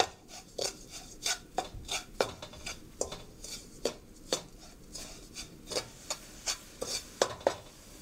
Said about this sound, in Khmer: កូរវាយើងកូរស្កររបស់យើងឲ្យវារលាយបន្តិច